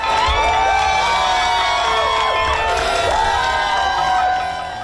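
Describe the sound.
A crowd in America cheers the announcement of Joe Biden's election win, a loud, continuous roar of cheering with high whoops and shouts rising above it throughout.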